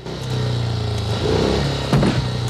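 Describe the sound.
A motorbike engine drones steadily as the bike is ridden through rain-soaked, muddy country lanes. Its harmonic hum shifts a little in pitch midway, and a short clatter breaks in near the end.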